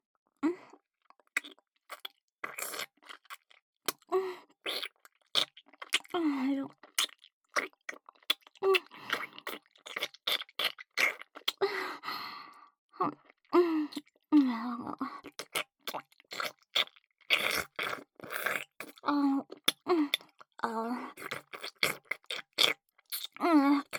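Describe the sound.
Eating and chewing food up close: many irregular, wet bites and crunchy chews in quick bursts, with occasional soft voiced hums between mouthfuls, fairly faint throughout.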